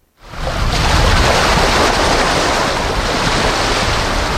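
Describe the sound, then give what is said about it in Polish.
Sea waves washing onto a beach on the Hel Peninsula: a loud, steady roar of surf with wind that swells in after a brief silence and holds unbroken to the end. “Szum fal, zapach morza, plaża, mewy, rozrzucone rybackie sieci.”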